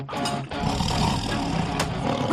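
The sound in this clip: A tiger roars in a scene from the film The Hangover: one loud, sustained, growling roar that fills the whole clip over a dense, rumbling backdrop.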